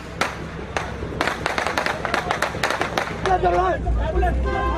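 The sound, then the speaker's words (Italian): Gunshots and screams from a video filmed during an attack at Karachi airport: many sharp, irregular cracks give way to high, wavering screams over a rumbling background. “Avete sentito il rumore, gli spari, le urla, le abbiamo riprese da un video che è stato filmato all'aeroporto di Karachi”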